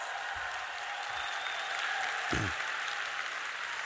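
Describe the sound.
Audience applause welcoming a speaker at a 2019 Christian conference seminar, a broad, sustained crowd clapping that holds evenly throughout, with a few soft low thumps underneath.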